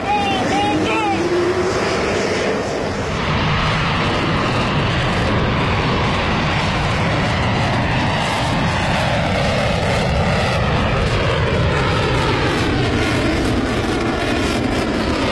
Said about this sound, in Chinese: 声中，四架战机先后腾空而起，直插云霄。